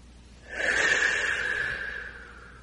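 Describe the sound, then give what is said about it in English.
A single slow, deep breath during a guided meditation: a soft, airy rush that swells in and then gradually tapers off over about two seconds. “Let's take a deep breath and go even deeper.”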